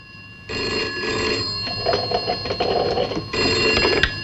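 Telephone bell ringing as a call is placed to a home line, a bright metallic trill that sounds in a few repeated bursts separated by short pauses.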